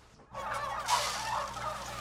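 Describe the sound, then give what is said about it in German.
Hundreds of turkeys gobble in a fattening barn, a dense, continuous chorus of overlapping calls that starts after a brief quiet moment and stays fairly faint and steady throughout. “Hunderte von Puten im Maststall.”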